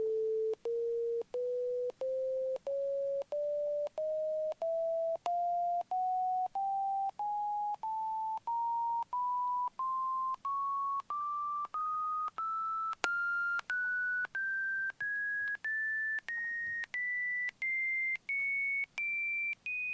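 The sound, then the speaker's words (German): Measurement test tones played by a computer through a loudspeaker: a long series of many short, equally loud beeps, each stepping slightly higher in pitch than the last, with no talk. “Der Christian Hof ist jetzt raus und hat den Computer bedient, wo jetzt den Lautsprecher in Bewegung setzt, wo die Töne, die Messtöne loslässt.”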